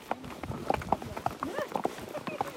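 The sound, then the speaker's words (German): Horse hooves clip-clop along a Swiss mountain trek, many quick, fairly regular clops in a walking rhythm, with a voice talking over them. “Und so wandern wir im Takt der Hufe.”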